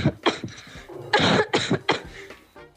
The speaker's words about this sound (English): I got two different coughs here.